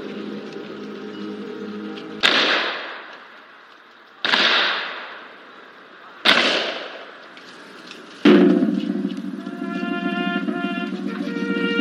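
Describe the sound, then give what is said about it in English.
Firing-squad rifle volleys fired as a salute at a memorial after a fatal accident: a few sharp, loud cracks evenly spaced about two seconds apart, each trailing off in a long decaying echo, with tonal sound following the last. “Firing squad, fire 3 volley.”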